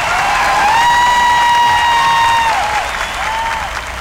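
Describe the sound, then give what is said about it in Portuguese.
Applause for a performer, played on a radio station: a full, steady wash of clapping with a sustained electronic tone gliding above it. “Uma salva de palmas, Fabinho Melo.”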